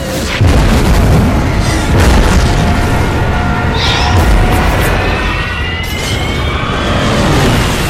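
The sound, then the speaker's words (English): Bombs exploding around the Japanese battleship Yamato during an air attack: heavy low booms run together into a loud continuous rumble. “Bombs rain down on Yamato. 27 of them, if the combat reports are to be believed.”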